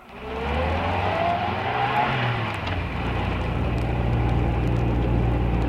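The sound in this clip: A car engine accelerates hard during a rushed drive to make up lost time after passing a barrier. The loud, steady roar has a low rumble, swells in pitch early on, then holds a gritty sustained drone.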